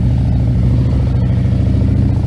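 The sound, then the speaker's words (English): Motorcycle fitted with a 131 motor kit, installed at a Nevada shop, riding off: a loud, deep, rumbling engine with a steady throbbing pulse, heavy low-end power and no voices. “Wow. Beautiful, beautiful bike. Very cool. Again, that 131, that's the first one that we've installed here in the state of Nevada.”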